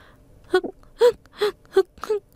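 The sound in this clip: A child bursts into tears in five short, choppy sobs. Each is a brief, high, wavering cry separated by small pauses, loud and with no words.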